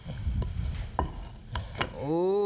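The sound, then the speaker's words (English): Crumbs being stirred into a liquid in a bowl, a few soft scraping and tapping strokes, followed by a short voice at the end. “Get all those crumbs mixed up with the liquid.”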